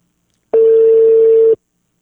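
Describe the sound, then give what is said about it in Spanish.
A telephone call being placed, heard as a single steady electronic line tone that lasts about one second and then stops, with no talk. “Ahí le estoy marcando al Capi.”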